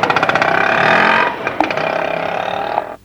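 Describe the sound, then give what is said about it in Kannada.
An auto rickshaw engine chugging, loud and continuous, with a rapid pulsing putter at the start that settles into a steady buzzing drone before cutting off after about three seconds. “ಅಲ್ಲೇ auto ಬರೋದು ಕಾಣಿಸ್ಲಿಕ್ಕತ್ತದೆ, ಅದರೊಳಗೆ ಇರೋರು.”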